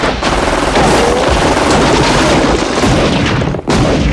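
A machine gun fires in a cemetery shootout: loud, continuous automatic gunfire with heavy booming shots, sustained with only a brief gap near the end.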